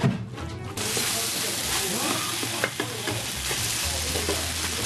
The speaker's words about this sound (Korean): 밥 볶아줄 거 아닐까? 볶아줄 거예요.